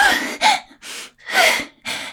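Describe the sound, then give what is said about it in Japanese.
Forceful breaths are exhaled so hard they turn voiced, five harsh, breathy bursts in a row, each a strong rush of air with a vocal edge, separated by short pauses. “もう息というか声が出ちゃうから、吐く息が声になっちゃいますね、これ。”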